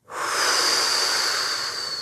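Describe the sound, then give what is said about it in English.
A single long, loud breath during a guided breathing exercise, a steady airy hiss that lasts about two seconds, with no talk over it. “Big inhale through your nose. Exhale through your mouth.”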